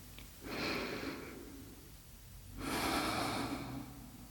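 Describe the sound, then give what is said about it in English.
Two long, soft breathy rushes of air from a deep breath, taken during a guided relaxation, separated by a short pause and heard alone without talk. “please close your eyes and take a deep breath”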